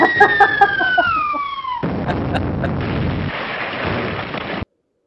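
A bomb sound effect: a bright whistle falls steadily in pitch for nearly two seconds, then a sudden loud blast bursts into a dense, noisy rumble that holds before cutting off abruptly.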